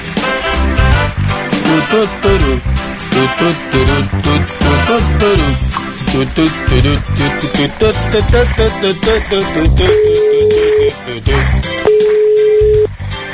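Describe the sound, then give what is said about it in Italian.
A telephone ringback tone sounds while a call is being placed: two long, steady, mid-pitched tones separated by a short gap, playing over loud, continuous music. “Chiamiamo Giovanna? Chiamiamo Giovanna, va.”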